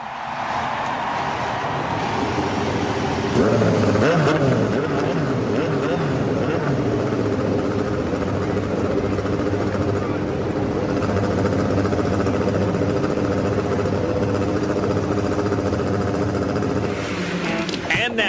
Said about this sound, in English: Ladies and gentlemen, start your engines.